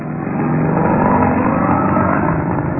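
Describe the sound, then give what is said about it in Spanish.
A modern sports car engine drones as the car is driven along a narrow, dusty, lonely dirt road after a storm. The fairly loud, even motor hum holds steady for the whole moment with no other sounds. “Calimán conducía hábilmente el moderno auto Sport por aquel camino polvoso y solitario”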